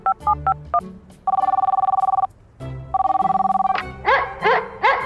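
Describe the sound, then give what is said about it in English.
A phone rings after a number is dialed on a mobile device: a few quick dialing beeps, then two long warbling ring bursts separated by a pause, followed by some short higher chirps. “Dialing number on my mobile device.”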